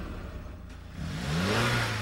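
A car engine revs during a driving test: a low, quiet idle for about a second, then a smooth rev whose pitch climbs and holds, growing louder toward the end.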